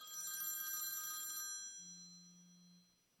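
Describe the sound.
A telephone rings with one bright, sustained electronic ring for about a second and a half, followed by a short, low, steady tone. No voices are heard.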